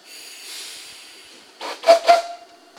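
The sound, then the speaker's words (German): A steam locomotive of Austrian origin, numbered 378, lets out a soft fading hiss of steam, then three short sharp bursts carrying a steady mid-pitched tone, the last two loudest. “Die Lok da heißt 378. Die kommt aber aus Österreich, ne?”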